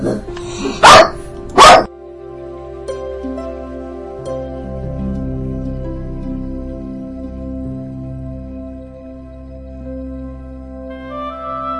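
A small female dog barks twice, sharp and loud, at the doorbell at home. Quiet, steady low tones and hum carry on alone afterward.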